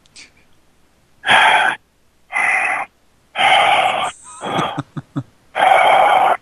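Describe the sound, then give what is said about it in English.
Heavy breathing on a 1970s prank phone call: several loud, rasping breaths come in separate bursts of about half a second, with brief silent gaps between them. “It's a prank call from the 70s with breathing.”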